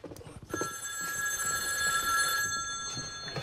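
A telephone rings in a cabin, a bright, steady electronic trill that starts after a short pause and continues unbroken to the end.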